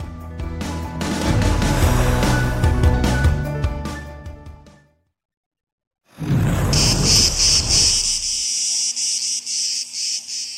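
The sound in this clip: Loud insects making a racket: after a dense stretch of sound and a brief silence, a harsh, high buzzing drone swells up and pulses steadily.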